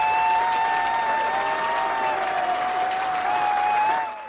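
An audience at a live show applauds the host with dense, steady clapping and some crowd noise. The ovation holds at full strength and then tapers off at the end.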